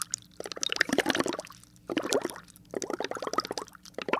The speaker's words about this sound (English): First, you boil some milk in a pot.